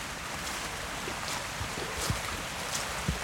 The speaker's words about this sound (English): The water comes over a concrete weir.